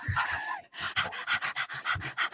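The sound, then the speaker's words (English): A person imitates a dog panting: many rapid, breathy huffs in a steady, evenly spaced rhythm, fairly loud and heard alone without talk. “you've just jumped out onto the sand, and the first thing you do is lightly panting”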